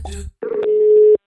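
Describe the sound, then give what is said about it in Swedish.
A telephone tone sounds while someone places a call: a single steady, even hum lasting under a second, just after a brief burst of voice. “Då har vi ringt upp Niklas Wikegård”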